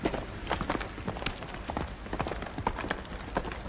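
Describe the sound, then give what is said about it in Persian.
Horse hooves clopping over a rocky mountain path as a rider passes, a dense, uneven run of many sharp hoof strikes at a steady level with no voices. “عبدالله به مسیر کوهستانی رسیده، سوار بر اسب در حال گذشتن است.”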